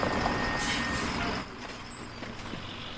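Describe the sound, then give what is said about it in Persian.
A bus pulls in and stops, with a loud broad hiss for over a second, like air brakes, then settling into a quieter, steady low engine rumble. “اتوبوس اومد، بلند شو پاشو دیگه،”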